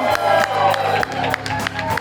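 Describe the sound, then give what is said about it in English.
A large, rowdy crowd at a live taping in the Craft and Draft craft-beer venue in Irmo makes a busy murmur of voices with scattered claps, steady and fairly loud throughout. “we're taping live in front of a large, rowdy, not yet surly crowd here at the new Craft and Draft in Irmo. Hey there, Irmo!”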